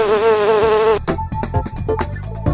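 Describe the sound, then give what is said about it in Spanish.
A bee buzzes loudly with a steady, droning hum for about a second. The buzz then breaks into choppy, stuttering bursts of varying loudness. “Mi picadura es dañina, mi cuerpo insignificante, pero el néctar que os doy, os lo coméis al instante. La abeja.”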